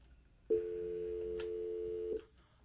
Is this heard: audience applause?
no